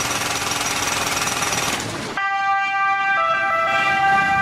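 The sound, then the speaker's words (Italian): A loud siren holds a steady, high electronic wail, briefly stepping between two pitches, after roughly two seconds of harsh jackhammer pounding that stops abruptly. “Sirena 100 decibel.”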